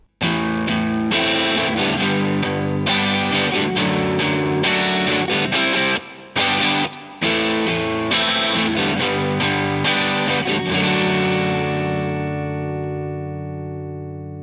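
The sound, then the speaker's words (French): Electric guitar chords strummed energetically across all six strings through a saturation pedal, a thick distorted wall of sound with a couple of brief gaps near the middle, then a final chord ringing out and fading. “on va jouer ces accords en strumming sur les six cordes et de manière vraiment plus énergique à la main droite, et c'est ce qui va permettre à la pédale d'apporter justement la saturation et de grossir le son.”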